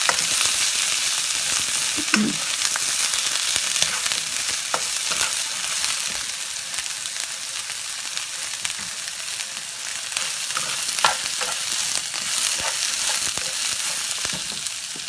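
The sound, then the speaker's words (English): Food stir-frying on high heat sizzles in a loud, steady hiss throughout, with scattered sharp clicks and scrapes of stirring breaking through at irregular moments. “I want to stir fry this on high.”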